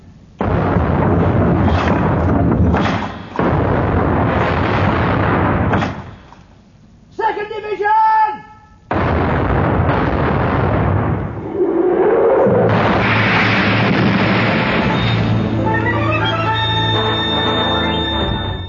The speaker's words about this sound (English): Open fire, First Division!